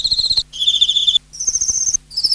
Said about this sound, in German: Zikaden.